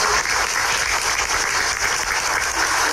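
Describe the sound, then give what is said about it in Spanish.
Audience applause at an event introducing preschool education staff: a dense, even patter of many hands that holds steady through the whole clip, with no voices over it. “Fuerte los aplausos.”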